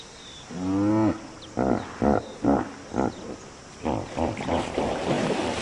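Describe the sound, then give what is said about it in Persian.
Hippopotamuses grunting in water: one long, deep, honking call, then a series of loud, rhythmic, pulsing grunts that repeat in quick bursts. “از جمله اسب های آبی.”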